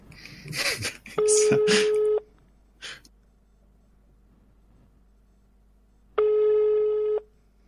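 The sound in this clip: Ringback tone of an unanswered phone call: two long, steady, mid-pitched tones separated by a few seconds of silence, following brief talk at the start.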